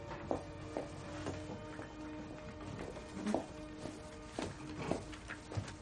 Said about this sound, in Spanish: Se levanta y camina hacia una pizarra verde al final de la sala.